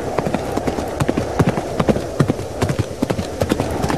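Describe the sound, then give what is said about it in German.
Clip-clop hoofbeats of a robot horse being ridden, a steady run of crisp, sharp knocks at a quick, even rhythm and fairly loud, with faint voice sounds underneath. “Er reitet auf einem Roboterpferd.”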